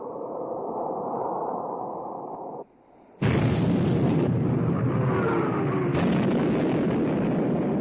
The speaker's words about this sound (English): Torpedo hit amidship, sir.